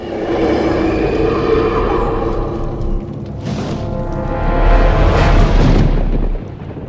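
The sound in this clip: Thunder during a storm, a loud, sustained low rumbling roar that swells and surges toward the end before easing off.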